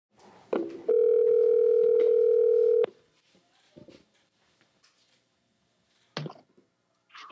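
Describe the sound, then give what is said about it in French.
A telephone dial tone sounds while a call is being placed: a loud, steady, unbroken tone holds for about two seconds, then drops to near quiet broken by a few short clicks. “On va débuter euh, très bientôt en appelant Monsieur Rabah Moula.”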